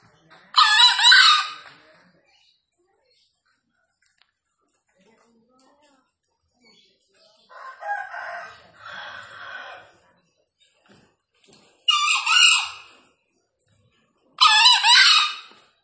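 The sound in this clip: Wild green junglefowl crowing while free-ranging: a few short, harsh, high-pitched crows, each about a second long, loud and alone, separated by long silent gaps.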